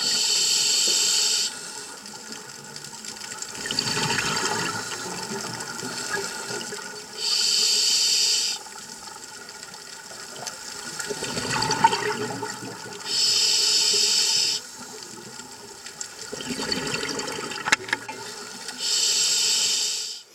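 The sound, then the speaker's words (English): Scuba breathing underwater through a self-contained regulator: four loud, steady hissing inhales alternate with three bubbly, gurgling exhales in a slow, even rhythm. “that is what it sounds like to breathe under the sea. Using scuba, or self-contained underwater breathing apparatus.”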